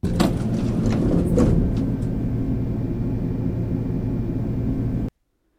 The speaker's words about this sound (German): Wenn es dann zur nächsten Folge geht, fahren wir mit dem Lift.